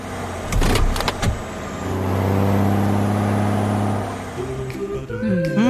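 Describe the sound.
A car starting off and driving away: a few sharp clicks at the start, then a steady engine hum that swells and holds before shifting near the end.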